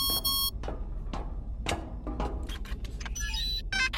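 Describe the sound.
A phone rings with an electronic beeping burst at the start and more bursts of rapid tonal beeps near the end, separated by scattered clicks and knocks, with no voices.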